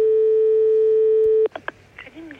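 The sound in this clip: A telephone line tone after a call is hung up: one steady, unbroken beep held for about a second and a half. It cuts off abruptly, and a voice then starts speaking.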